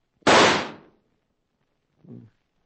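A single Winchester rifle shot that misses in a Western frontier scene: one loud, sharp crack with a quickly fading tail, followed after a pause by a brief, much fainter low sound.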